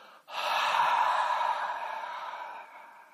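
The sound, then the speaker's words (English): A long, steady open-mouthed exhale, like fogging a mirror: one breathy huff after a brief pause, sustained for nearly three seconds and slowly fading. “Take a normal breath in. And then pretend to fog a mirror as you exhale.”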